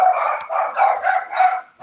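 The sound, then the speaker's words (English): Dogs barking at home: a few quick, high-pitched, harmonic yaps follow one another in a rapid, uneven series, fairly loud, with a short pause before a final bark. “Can you hear all my dogs barking?”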